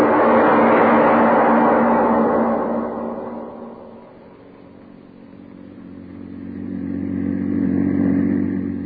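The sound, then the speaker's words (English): A car driving along a country road carries a chauffeur and passenger: a steady mid-pitched engine hum with faint clatter, loud at first, dipping midway, then swelling again, with no talk. “The publisher and his chauffeur are driving along a country road.”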